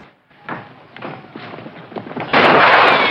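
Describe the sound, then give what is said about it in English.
Gunshots ring out as pot shots in a Western scene set around the OK Corral. Several sharp cracks are followed by a loud, sustained burst of harsh noise at the end. “He immediately retreats as the Clantons fire pot shots at him.”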